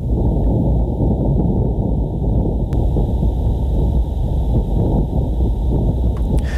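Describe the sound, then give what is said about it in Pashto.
Wind on Mars, recorded by NASA instruments during their first week of operation on the planet: a loud, continuous low rumble with a muffled, buffeting texture that stays steady throughout, with no voices. “ناسا پرون د باد دغه آډیو یا ثبت شوی ژغ خپور کړ.”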